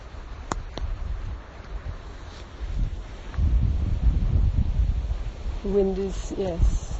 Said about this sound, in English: The wind is quite strong, and I can hear it in the trees, but actually down here I'm a bit protected from it.